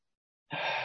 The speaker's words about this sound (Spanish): Y te invito a que podamos hacer unas 3 o 4 respiraciones profundas. Inhalando por la nariz